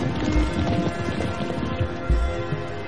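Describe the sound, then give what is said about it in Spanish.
Horses' hooves clop steadily as riders travel along a road beside a river, a dense run of hoofbeats over continuous background noise. “Cabalgan junto a un río. Cabalgan por un camino.”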